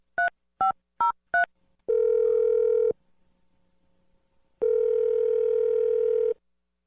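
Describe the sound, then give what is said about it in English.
A telephone number is dialled as four short, evenly spaced touch-tone beeps, followed by two long, steady ringing tones separated by a silent gap, all clear and alone without talk. “I'm going to dial the number. Here we go.”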